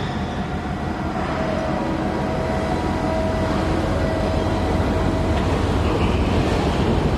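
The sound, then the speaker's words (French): Ambience of a container terminal at the end of a quay in Yongtian where a ship is moored: a dense, constant industrial rumble with a faint tonal hum, loud and unbroken, with no distinct separate events. “à Yongtian, sur le terminal des conteneurs, au bout du quai. Là où l'on est amarré.”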